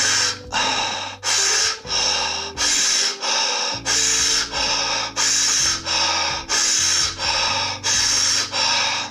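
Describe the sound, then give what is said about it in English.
Rapid breathing exercise: a very fast, forceful inhale followed by a relaxed exhale, repeated many times in a steady, even rhythm as loud airy hisses with no talking. “you will really inhale really fast and then exhale, let the lungs just exhale on their own. It will kind of sound like this.”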